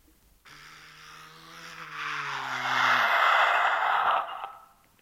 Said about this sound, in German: Da draußen fahren Autos vor. 4 Stück scheinen Polizeiwagen zu sein.